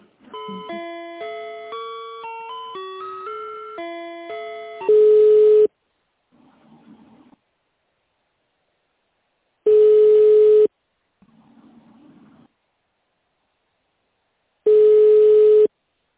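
Telephone line tones while a call is transferred: a rapid run of short electronic beeps at shifting pitches, followed by three long, steady, loud tones separated by quiet gaps.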